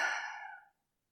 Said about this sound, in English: the deep exhalation, the deep breath out